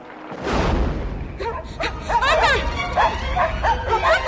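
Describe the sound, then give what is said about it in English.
Two black and white dogs barking, a run of many sharp barks and high yips at a lively, uneven pace, loud over a low background rumble. “runs to the house with two black and white dogs at her heels.”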